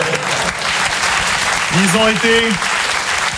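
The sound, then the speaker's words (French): Audience applause for the technical crew at a one-man comedy show: dense, steady clapping continues throughout, with a brief voice rising over it partway through. “On applaudit l'équipe technique.”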